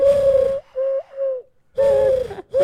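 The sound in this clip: A person imitates a bird call by blowing into cupped hands, producing hollow, steady hooting notes at a fairly low whistle pitch. A few loud hoots are separated by short pauses, with one softer, wavering hoot among them.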